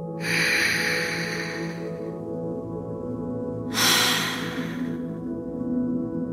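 A deep breath in and out during a guided relaxation exercise: two airy, hissing breaths over a soft, steady musical drone, the first long and drawn out, the second shorter.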